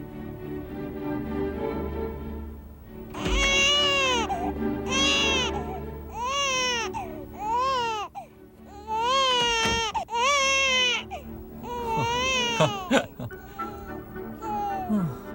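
A baby cries at home in many repeated wailing bursts, high and strained, each cry swooping up and down in pitch over a steady low background hum.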